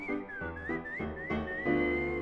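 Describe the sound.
Someone whistles a bright tune over musical accompaniment, a series of clear notes that slide and bend in pitch, with steady chords sounding underneath.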